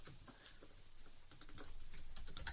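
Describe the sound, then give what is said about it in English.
Faint computer keyboard typing as people search Google, a quick, uneven patter of many keystrokes that stays quiet throughout. “The sound of people Googling things. It's podcast gold.”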